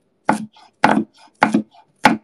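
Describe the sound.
Garlic is chopped in four sharp, evenly spaced strokes, each trailed by a softer knock, with no voices.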